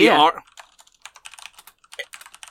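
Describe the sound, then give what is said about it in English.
Keys click on a computer keyboard in many quick, light, irregular taps after a brief burst of voice at the start. “you hear clicking on a keyboard.”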